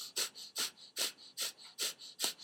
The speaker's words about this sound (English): And so I do like a fire breath, which is in and out of the nose.